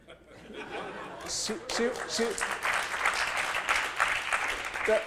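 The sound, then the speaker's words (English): An audience at a live book interview breaks into sustained applause, with chuckles and laughter mixed in and voices talking underneath the clapping throughout. “See, she mentions revolution and gets applause.”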